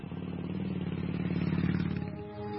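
Motorbike engine running with a rapid, rhythmic low putter and a steady buzzing drone. It stays moderately loud, then eases slightly near the end.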